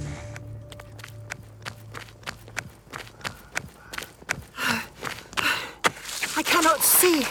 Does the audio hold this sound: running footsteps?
yes